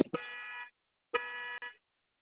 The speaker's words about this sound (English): Sorry, my car alarm.